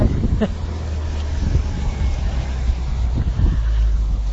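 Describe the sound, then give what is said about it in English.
Blustery wind, strong and seeming to shift direction, roars as a steady low rumble with irregular gusts buffeting the microphone throughout. “You can probably hear the wind.”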